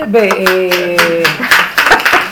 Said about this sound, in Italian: l'applauso mi sembra molto, molto chiaro